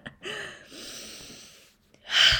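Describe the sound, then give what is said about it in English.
A deep breath: a long, noisy inhalation, then a short pause and a strong, breathy exhale at the end. No one speaks. “Take a nice deep breath. I need to take a deep breath.”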